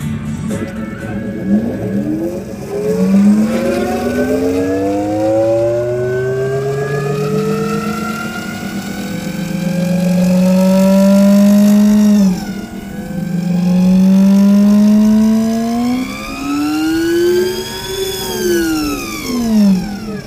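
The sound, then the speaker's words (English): An electric motorcycle with a belt drive revs, its motor and belt producing a tonal, siren-like whine that sweeps up and down in pitch through several surges and climbs to a high peak near the end. “you hear a belt, and it makes this kind of sound that sounds weird. Can you run this? I want to record the sound because it's unique for an electric.”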